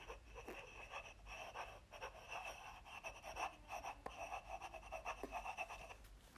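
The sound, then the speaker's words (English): Pen scratching on paper while notes are written down, a faint, steady run of quick scratchy strokes with brief pauses between many short bursts, and no talking. “I'm gonna write it down.”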